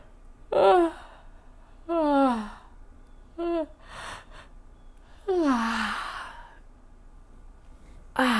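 Yawns drawn in through a wide-open mouth as the arms reach up in a whole-body stretch, one side lengthening at a time; a few voiced, sighing yawns slide downward in pitch, separated by quiet pauses.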